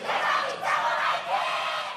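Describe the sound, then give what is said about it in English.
Fans cheer at a Korean video game competition, a big crowd roaring and shouting together in a sustained, loud swell that rises and dips a few times. “the fans cheer their favorite players like they were football stars”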